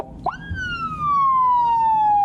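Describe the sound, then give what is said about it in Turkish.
Police car siren from a patrol vehicle on traffic duty in Düzce, Turkey: a loud wail that sweeps sharply up, then glides slowly down in pitch as one long, steady tone. “Polis aracıyla yola çıkan Oğuz Kağan heyecanlıydı. Elinde siren kumandası vardı.”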